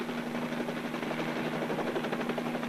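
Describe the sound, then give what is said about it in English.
Helicopter rotor and engine noise in a steady, loud drone with a fast throbbing pulse and a constant low hum, alone throughout with no voices. “It's pulling the helicopter down.”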